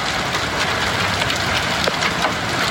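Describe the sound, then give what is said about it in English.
Hail hitting a car's roof: a dense, steady patter of many small impacts with occasional sharper hits standing out, fairly soft overall and with no voices. “that's the sound of hail hitting a car's roof.”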